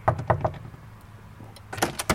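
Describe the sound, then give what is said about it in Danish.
Three sharp, evenly spaced knocks on the door of a church's confirmation room, followed after a quiet pause by two louder thuds from the door. “Jeg banker lige på en gang.”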